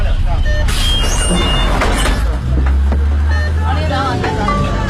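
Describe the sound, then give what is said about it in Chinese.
A city bus in Beijing pulls away from a stop, its low engine rumble swelling beneath passengers' chatter, with a few brief high tones cutting through. “车辆起步，请扶稳坐好。”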